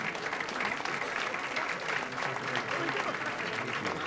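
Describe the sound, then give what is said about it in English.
Admirers applaud a professor as he makes his way down a staircase, a steady, even clapping with a light murmur of crowd voices underneath. “Professor Konigsberg is making his way down a staircase, surrounded by his applauding admirers.”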